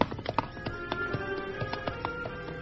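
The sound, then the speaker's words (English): Hooves of a newly shod horse, ridden slowly and cautiously, clip-clop in a quiet, steady, unhurried rhythm of many sharp hoof strikes, with no voices. “Riding slowly and cautiously, the Lone Ranger followed Victor's tracks. Victor had recently been shod, and the new horseshoes left a sharp and distinct trail.”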